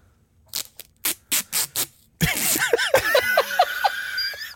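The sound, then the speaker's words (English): Duct tape wrapped on a faucet comes loose and drops, heard as a series of short, rasping bursts. People then break into laughter and talk over one another. “That's the duct tape. Duct tape dropping.”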